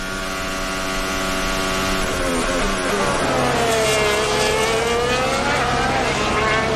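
A Formula 1 car engine at full throttle, with the hybrid battery charging during a race, gives a loud, unbroken high-pitched roar and whine whose pitch dips and then climbs again.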